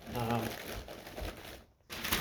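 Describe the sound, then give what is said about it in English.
Packing paper being crumpled into wads for nesting pots: close, papery crinkling and rustling that stops briefly near the end, then resumes. “So I do wads of paper, and then I nest them in,”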